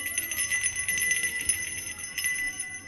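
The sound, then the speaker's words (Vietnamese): A small brass hand bell shaken softly, a few light jingling strikes with thin, lingering high ringing tones, faint and unhurried throughout. “ông cụ rút ra cái chuông đồng rung khẽ kêu len ca len keng.”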